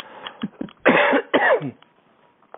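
Throat clearing from a dry throat: a few soft, raspy rasps lead into two longer, loud, rough bursts, then the sound fades back to quiet.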